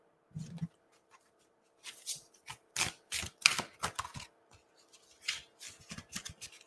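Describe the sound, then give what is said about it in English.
Cards are pulled one after another from a card deck during a card reading, making soft, crisp flicks, slides and taps. The sounds are faint and irregular, with many short bursts and quiet gaps, and there is no talk. “let's see what additional questions and insights want to come through as we pull cards from this first deck.”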